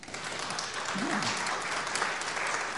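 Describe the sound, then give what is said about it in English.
A church audience claps at a morning service, a soft, even patter of many hands that runs without a break, with a short vocal sound briefly showing above it. “I never get applause, man.”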